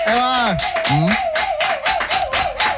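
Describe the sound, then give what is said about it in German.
A few people in a radio studio clap steadily in a dense run of claps, while a wavering tonal voice sounds over them. “Da sind einige Leute noch bei uns im Studio hier im Marketing und ein paar Gäste. Da hätte ich gerne mal einen Applaus, bitte.”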